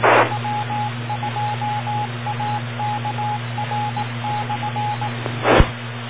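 Telephone dial tones beep in a quick series of many short, steady electronic pulses while a call is placed back, over a constant low hum and line hiss, ending with a brief thump.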